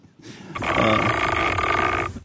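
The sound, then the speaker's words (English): A long burp from a male, one sustained, rough and throaty belch lasting about a second and a half, loud and heard alone without talk. “Yeah, that's his burp. Really? That was his burp, yeah.”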